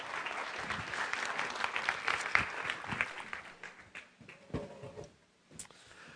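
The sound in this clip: Applause from a church audience welcoming a family onto the stage: brisk clapping that starts full, then thins and tapers off, dying away by about five seconds.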